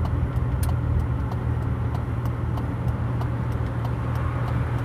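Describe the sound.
Rear-wheel-drive car driving along a street, heard as a steady low engine rumble and continuous road noise. Faint, regular light ticking sits above the rumble, and no voices are present.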